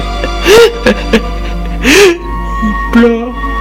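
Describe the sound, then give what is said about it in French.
A boy cries in short, loud sobbing whimpers with a wavering, rising and falling pitch, several bursts separated by brief pauses. “Il pleure.”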